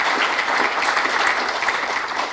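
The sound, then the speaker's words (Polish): Audience applause for the hosts: steady, dense clapping from many hands, a continuous bright crackle at even loudness throughout, with no speech over it. “więc także oklaski dla naszych gospodarzy, którzy nas gościli.”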